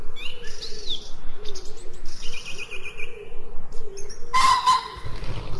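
Birds singing in a green forest, scattered chirps and whistled calls over a steady rustling background, with a brighter, sharper call near the end.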